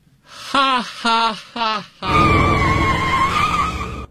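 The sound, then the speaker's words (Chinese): A car skids with a long, steady screeching squeal lasting about two seconds, loud and sustained. Three short voiced bursts, like laughs, come just before it. “我刚出门就让汽车给撞了”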